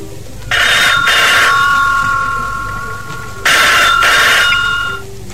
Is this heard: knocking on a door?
no